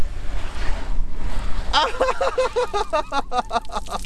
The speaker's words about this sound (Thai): ฉีดน้ำด้วยเหรอนี่ๆๆเดี๋ยวมาดูเดี๋ยวมาดู อ ัน เน ี้ ย เราก็ไม่ต้องเอาน้ำไปไม่ต้องหนักใช่ไหม ใช่ครับ มันจะฉีดพุ่งเลยนะ